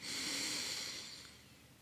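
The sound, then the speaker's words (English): A single long, deep breath is drawn in through the nose during a guided relaxation exercise. It is a faint, airy hiss that starts at once, holds, then slowly tapers off, with no talk. “So deep breath in through your nose”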